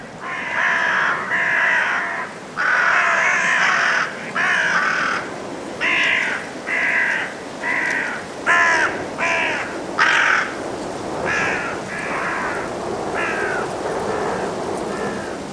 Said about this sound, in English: Five carrion crows head to roost at dusk in Woodchester Park in Gloucestershire, England.